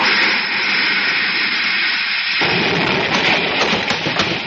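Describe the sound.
In a science-fiction radio drama, an enemy gun's shot strikes a spaceship: a loud, sustained roaring hiss that suddenly drops into a heavier, deeper rumble partway through.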